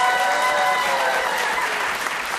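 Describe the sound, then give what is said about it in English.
A crowd of audience members applauds an impression with dense, even clapping that holds at a steady level for the whole clip. “Applause for Stallone impression.”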